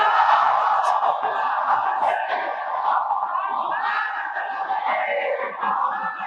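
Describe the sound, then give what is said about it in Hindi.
An audience loudly recites salawat together, many voices merging into one continuous, forceful chorus with a few sharper shouts rising from the mass. “अल्लाह हम सब को नजफ़े अशरफ की ज़ियारत नसीब करे, मेरे मौला की ज़ियारत और करबला की अरबईन की ज़ियारत के लिए बाबा से बुलंद सलवात पढ़ो।”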